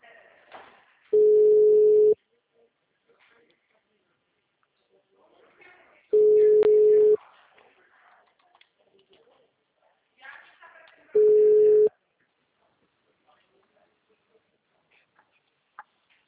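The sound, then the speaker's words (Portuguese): Phone-line busy tone after a dropped call: three steady, flat tones, each about a second long, spaced roughly five seconds apart, with faint talk in the quiet stretches between. “acho que caiu a ligação, perdão”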